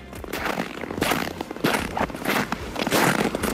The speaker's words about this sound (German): Na, spüren Sie schon den Schnee unter den Fußsohlen?